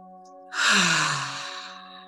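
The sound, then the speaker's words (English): A single deep breath out during a guided meditation, a long airy sigh that swells and then slowly fades over a soft, steady musical drone, with no talking. “Taking some deep breaths in, use your breath and sink into your heart, sink into your body.”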